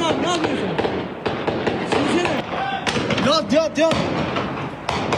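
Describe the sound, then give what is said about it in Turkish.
Gunfire crackles during an armed clash filmed by construction workers: many sharp cracks and thuds at irregular intervals, with voices shouting and talking between the shots. “Peşi sıra ateşlenen silahlar ve yaşanan çatışma anlarını bölgedeki inşaat işçileri saniye saniye kaydetti.”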